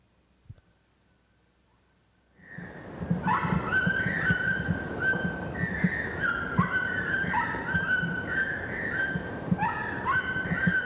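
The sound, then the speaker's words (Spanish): Toucans calling in Colombian nature, repeated tonal, croaking calls over a steady high hum and dense background noise. The sound starts abruptly after a short quiet opening. “Los tucanes, con sus grandes picos y su fuerte voz.”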